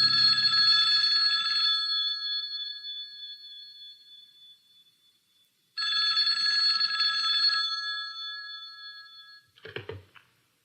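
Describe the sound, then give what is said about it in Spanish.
A telephone bell rings in two long, bright, metallic bursts separated by a silent pause, followed by a brief low noise as the ringing stops. “Aquella inicialmente desconcertante llamada telefónica.”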